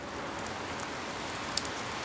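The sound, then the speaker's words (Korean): The first raindrops start to fall as a soft, continuous patter, and a couple of sharper drop taps stand out near the end. “동시에 그 위로 빗방울이 하나 둘 떨어졌다.”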